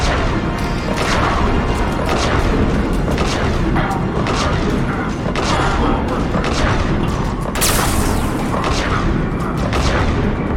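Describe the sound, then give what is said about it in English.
Heavy autocannon fire in a video game, a dense, loud barrage of booming shots that runs through the whole clip with little pause. “So that's the sound of the heavy autocannon.”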